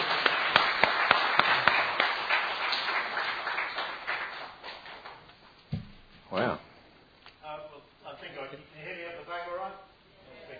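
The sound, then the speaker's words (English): Audience clapping for an interviewer at a thank-you presentation: a crisp burst of many claps that thins out over a few seconds, then people begin talking. “I think we should clap the interviewer, don't you?”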